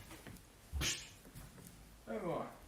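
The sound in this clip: A brief, high whimper from Charlie, a female dog, near the end, after a stretch of quiet low background noise.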